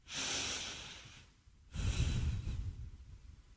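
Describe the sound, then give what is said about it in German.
Slow breathing in and out, heard alone: a soft, airy inhale, a brief pause, then a fuller, lower, breathy exhale that tails off gradually. “Atme nochmal.”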